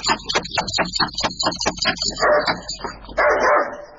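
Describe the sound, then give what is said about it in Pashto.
A dog barking at a house gate, a rapid run of many sharp, loud barks in a steady rhythm, then rougher, more drawn-out bursts toward the end. “او تاسو بد سپی لري”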